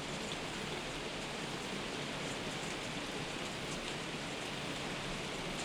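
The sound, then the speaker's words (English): Steady rain falls in a dense, even hiss that stays constant throughout, with no distinct drops standing out and no voices. “I just want to listen to the rain for 5 seconds.”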